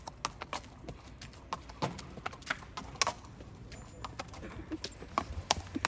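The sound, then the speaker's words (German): A horse's hooves clip-clop as it walks back into its stable, with many faint, irregular steps. “So, da kommt Sisverhahn zurück in seinen Stall.”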